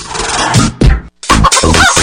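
Loud chicken clucking and squawking in a few harsh, throaty bursts, broken by a short silence partway through before the calls resume.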